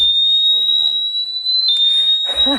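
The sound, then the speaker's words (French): A bike lock's anti-theft alarm, triggered by moving the bicycle, emits a piercing, steady high-pitched tone throughout, with people talking over it toward the end. “Hop, on verrouille l'antivol, il est sur le vélo, il bouge plus, il va s'initialiser. Et à partir du moment où je le bouge, je manipule, une première alerte.”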